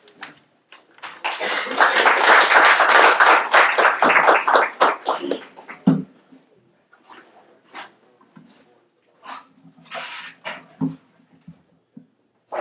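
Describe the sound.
Audience applause welcoming a speaker to the podium at the Institute of World Politics, a dense clapping roar lasting about five seconds that then fades as a man begins talking.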